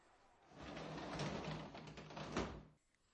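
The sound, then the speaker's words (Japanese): A front door opening, heard as a faint rattling scrape that builds, runs for about two seconds and then drops off, followed by quiet. “おい、お前玄関の鍵持ってるよな。 うん、今開ける。”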